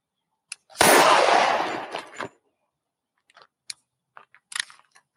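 A single loud gunshot blasts out and trails off in a long, noisy decay, followed by a few faint, scattered clicks and ticks.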